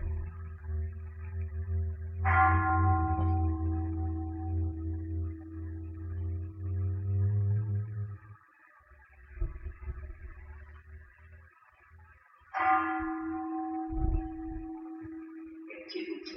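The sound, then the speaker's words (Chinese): Meditation bell struck twice during silent meditation practice. Each strike gives a bright metallic onset that rings into a long, sustained humming tone and fades slowly. A quiet low rumble sits between the strikes. “这个钟声静止的时候，心会跑去想别的”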